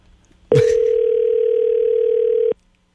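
A telephone dial tone sounds while a call is being placed: one steady, loud, unbroken hum that starts abruptly, holds for about two seconds, then cuts off into silence.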